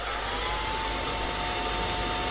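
A hair dryer runs with a steady, loud blowing hiss. A thin whine holds at a constant pitch throughout, with no pauses or changes.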